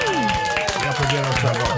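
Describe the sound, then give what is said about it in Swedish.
A small round of applause for two band members in a radio studio: a handful of scattered, sharp claps mixed with voices talking. “Och grabbarna i Medina är kvar, Sami och Ali. Ja. Ni får en liten applåd igen.”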